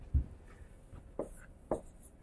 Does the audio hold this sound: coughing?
no